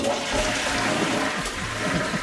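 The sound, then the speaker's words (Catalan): A pull-chain toilet flushes as water empties from the cistern in a steady, broad rush of gurgling, churning water. It runs continuously and fairly loud, with no voices. “cadena és un dispositiu de vàter per buidar l'aigua d'un dipòsit.”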